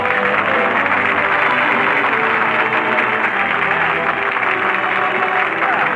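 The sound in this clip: A studio audience applauds Jack Benny's entrance on a radio comedy show, a dense, steady wash of clapping that holds at an even level throughout.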